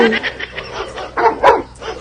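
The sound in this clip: A dog yips and barks in a quick series of short, high, uneven bursts, some louder than others, with brief gaps between them.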